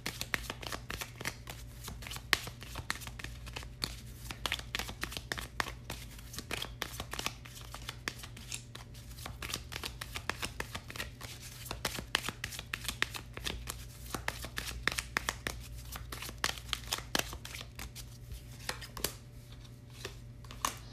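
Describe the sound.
Tarot cards are shuffled and drawn, giving a dense, continuous run of rapid papery riffles and soft slaps that stays steady for about twenty seconds under a low constant hum.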